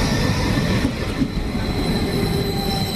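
A regional express train pulls into a station, its wheels making a loud, steady rumble while thin, high-pitched squealing tones ring continuously above it, with no voices.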